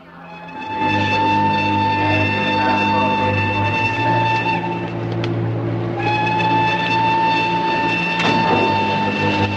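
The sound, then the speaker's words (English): A train travels with a steady rolling rumble, while two long, sustained tonal horn blasts sound loudly over it, one after the other. “The train continues its journey.”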